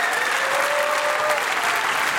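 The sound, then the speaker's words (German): Dense, steady applause from an audience honouring award winners at the close of the Baden-Württemberg cabaret prize ceremony, sustained at an even loudness for its full length. “Und der letzte Applaus des Abends gebührt unseren Preisträgern.”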